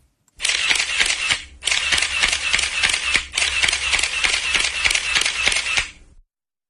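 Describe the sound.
Camera shutters click at a press conference in rapid, loud, mechanical runs. Three long bursts of quick clicks are split by two short pauses, with no voices.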